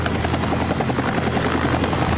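A helicopter in flight, held steady during a precision challenge to open a beer bottle with a bottle opener. It gives off a loud, continuous rotor and engine drone with a buzzing texture and no talking.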